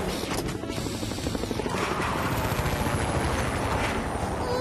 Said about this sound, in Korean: 프로펠러 바람이 너무 세서 위험한데.